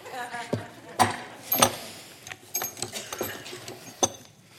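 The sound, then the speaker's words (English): Pieces of a socket set and wrenches handled in a bag, making irregular metallic clinks, clanks and rattles, with a few sharper knocks among quieter shuffling. “I do know that that is part of a socket set, okay? I got some wrenches in here.”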